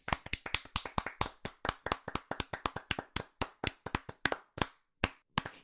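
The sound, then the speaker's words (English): Hands clap to welcome a guest onto a wrestling recap show: many crisp, separate claps in a quick, uneven rhythm that thins out and slows toward the end, with no voices over them. “Were you not pleased with the clap? We gave you the clap.”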